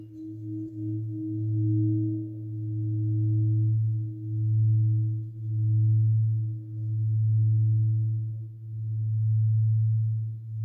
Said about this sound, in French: Alors on va l'écouter maintenant en rotation.